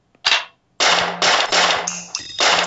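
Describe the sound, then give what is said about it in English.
Gunshot effects from a phone gun app, played by tapping the screen: a rapid series of several loud, sharp, crackling shots with brief gaps, each burst bright and dry like a cap gun, following one short opening shot. “I'm just tapping the screen and shooting the gun. And you can rack the slide, and then it reloads.”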